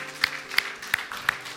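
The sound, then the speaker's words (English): An audience claps hands in praise during a church service, with a few faint, crisp claps falling in a slow, evenly spaced rhythm. “Can we give him a hand clap of praise this morning, praise offering?”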